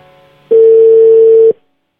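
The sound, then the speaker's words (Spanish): A single loud, steady telephone tone sounds while a call is being placed. It holds one even pitch for about a second, then cuts off into silence. “estamos intentándole marcar a Alexia.”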